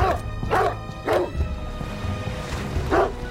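Dog barking near a loch, heard from a boat: a few sharp, mid-pitched barks spaced irregularly over a steady low background hum.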